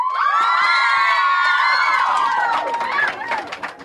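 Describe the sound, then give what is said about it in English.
A large audience at a live event cheers, shouts and whoops, loud and sustained for several seconds before thinning out and fading toward the end. “if you do think Harry will go through the veil at some point, Deathly Hallows, make some noise right here.”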